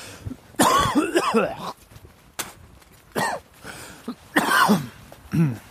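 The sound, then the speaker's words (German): Harsh, hacking coughs typical of whooping cough come in a few ragged bursts separated by short pauses, mixed with throat clearing and rasping breaths. “Das besinnliche, der besinnliche Keuschhusten.”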